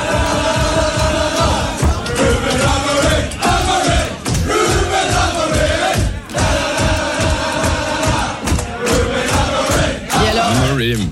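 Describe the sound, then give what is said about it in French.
Manchester United supporters chant coach Ruben Amorim's name at his first match in charge, a huge crowd singing a loud, rhythmic, repeated melodic chant that carries on unbroken from start to finish. “Ruben Amorim, voilà, les paroles, c'est pas du Cabrel ou du Souchon, c'est Amorim, nananana. Ouais. Mais quand même, un chant à la gloire d'un entraîneur qui compte pour l'instant 2 victoires avec Manchester, c'est juste incroyable.”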